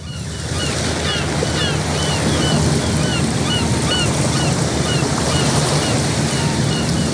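Harbour water at the port of Isla Cristina washes steadily beneath constant wind noise, a loud unbroken rush, with faint high chirping calls scattered above it.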